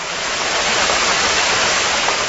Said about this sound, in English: That's a large ship, by the way.